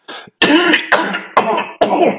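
A person coughs and clears their throat loudly: one short burst, then four longer, rasping, harsh bursts in a steady rhythm.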